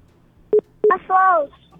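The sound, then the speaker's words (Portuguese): Touch-tone beeps of a dial-up internet line being dialed: a few short, sharp tones close together, followed by a brief falling voice-like sound. “Olha aí, a internet discada aí.”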